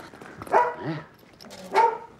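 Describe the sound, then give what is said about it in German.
Dogs next door bark: two separate barks with a whiny, yelping tone, moderately loud, with quiet gaps between them and no talk. “Dann sind ja jetzt hier auch noch Hunde nebenan.”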